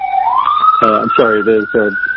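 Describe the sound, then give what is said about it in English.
An ambulance siren wails as it goes by, its pitch sweeping slowly upward over the whole stretch, while a person talks over it. “there's an ambulance going by. I don't know if you can hear that.”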